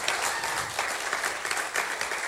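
Congregation applause welcoming guests at a church service: a dense, steady wash of many hands clapping, holding an even level with small surges throughout.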